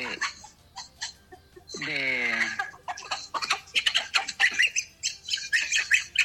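Chicks squawking in a busy run of short, high chirps and squeaks, with one longer, harsher squawk near the start. The calls come quickly and overlap throughout.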